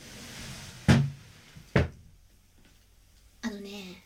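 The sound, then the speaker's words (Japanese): An empty tansu chest of drawers knocked on, producing two sharp, hollow wooden thumps followed later by a third knock, with a voice heard briefly at the end. “タンスあるくせに中身空なの。ほら、空の音するでしょ。”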